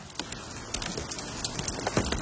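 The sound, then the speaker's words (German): Steady rain falls on a surface as a dense, even hiss, flecked with scattered louder drops and soft crackling patter throughout. “Wie versprochen, bleiben wir noch ein bisschen länger im Regen stehen.”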